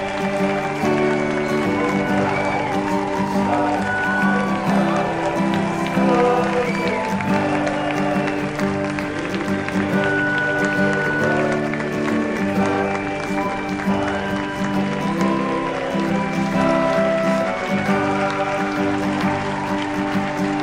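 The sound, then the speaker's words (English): A crowd in a room cheering wildly as a football quarterback appears: a loud, unbroken roar of many voices with applause, kept up at full strength throughout without letup. “there is so much noise in this room, and it has reached a cacophony.”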